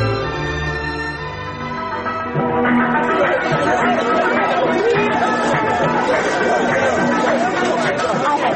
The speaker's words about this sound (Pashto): دا څومره ګڼه ګوڼه ده چیرې کینم؟